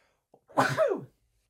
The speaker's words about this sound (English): And I'm going to sneeze.